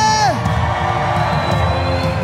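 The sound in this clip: A church audience shouts and cheers together during a Spanish-language service, a dense loud roar of voices with whoops and yells that stays at a steady level for its short length.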